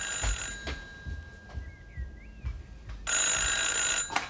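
A telephone rings late at night in two shrill, loud bursts of bell ringing separated by a quiet gap, with a faint bird chirp in between.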